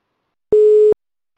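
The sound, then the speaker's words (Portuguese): A telephone line tone sounds while a call is being placed: one steady, clear electronic beep of even pitch, lasting under half a second, with no voices around it. “Deixa eu ligar para ele.”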